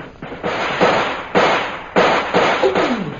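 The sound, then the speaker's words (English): Gunfire in a shootout with defenders firing to cover an escape: several sharp, loud shots crack at irregular intervals, each followed by a short ringing decay, with no voices over them. “We'll start firing again. We haven't much time.”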